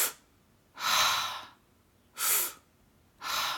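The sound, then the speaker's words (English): Exaggerated, dramatized breathing: a few loud, airy inhales and exhales, each rushing for under a second and separated by short quiet gaps. “no pause at the top of the exhale or the bottom of the inhale, so it's more of a circular breath. I'm going to dramatize it for effect on the podcast here.”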